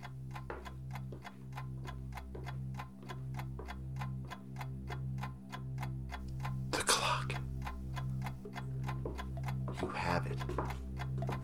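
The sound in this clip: A pendulum clock ticks in a steady, even rhythm, with many crisp ticks running over a low sustained hum and a couple of brief breathy noises.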